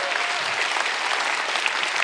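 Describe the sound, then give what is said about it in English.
Enthusiastic applause from a church audience honoring their pastors, many hands clapping in a dense, even roar that holds at a constant level for about two seconds. “Would you give them a big round of applause?”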